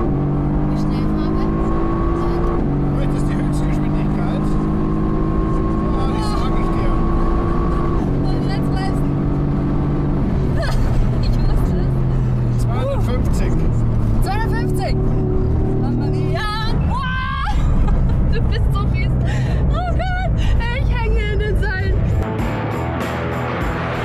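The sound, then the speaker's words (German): A race car at full throttle crossing the start-finish line on lap two, its engine loud and continuous with stepped shifts in pitch as it changes gear, with voices talking over it. “Das erste Mal über Start und Ziel, Runde 2, startet mit Vollgas”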